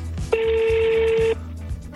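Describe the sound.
A single steady ringback tone on an outgoing telephone call holds one flat pitch for about a second, loud and clear over a low background murmur, with no speech.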